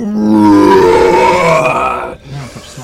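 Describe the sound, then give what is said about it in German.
A bear gives a loud, thundering roar after being punched on the snout. The single harsh, deep roar lasts about two seconds, then trails into a few lower grunting breaths. “Sobald mehr oder weniger deine Faust die Schnauze dieses Bären berührt, hörst du ein unfassbar donnerndes Brüllen.”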